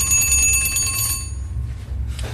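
A mechanical alarm clock's bell rings on an old, artisan-made clock, a rapid, bright metallic clatter for over a second that then dies away, leaving a low hum beneath.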